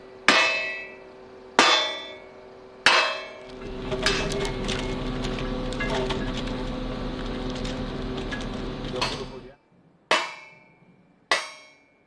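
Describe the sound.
Metallic clangs from workers assembling steel tower modules for a gin pole: five sharp, ringing impacts, three in quick succession early and two near the end, with a steady mechanical drone between them.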